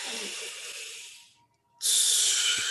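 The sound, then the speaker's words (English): Long, deep, slow breaths in a repeated breathing exercise: one airy, hissing breath tapers away, a brief silence follows, then a louder rushing breath starts and carries on to the end. “Long and deep breath. Yeah. So deep and long and slow and like,”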